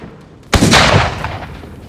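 A single gunshot, a headshot, opens with a sharp, loud crack and then a long rumbling decay that fades slowly over more than a second. No voices are present.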